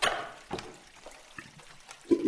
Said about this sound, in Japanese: それでは次は正面の方をお流しいたしますので、こちらを向いてくださいね。